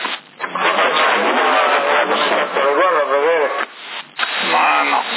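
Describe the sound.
Engine noise picked up by a CB radio microphone: a constant rumbling drone that runs beneath continuous talk, with a thin, band-limited radio tone throughout.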